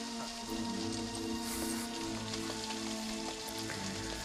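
Rain falls as a dense, even hiss of drops with faint pattering, continuous and fairly quiet for the whole stretch, with no voices over it.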